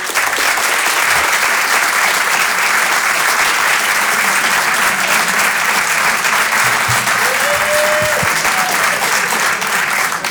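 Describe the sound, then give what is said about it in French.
An audience gives a performer an ovation with dense, loud applause. The clapping runs steady and unbroken for the full ten seconds. “Faites une ovation pour Edgar Yves.”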